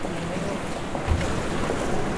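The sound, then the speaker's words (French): Rough, very agitated sea at Naples whipped by wind, a continuous loud roar of surging water and gusts with no distinct breaks. “Voilà la mer. Et quelle mer! Très agitée,”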